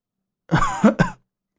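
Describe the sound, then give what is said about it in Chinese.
A single short cough or throat-clearing comes from a poisoned Buddhist master who is bleeding from the nose and mouth. It is made of a few quick, rough, voiced bursts, alone, then silence. “无缘法师凝视着刘通，咳了一声。”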